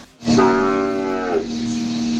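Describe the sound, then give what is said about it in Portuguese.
Cattle lowing, led by one long, loud moo with a droning, nasal tone that drops off, followed by a lower sustained bellow continuing to the end. “a boiada berrando”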